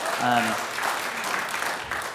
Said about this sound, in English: Yeah, you can clap for that.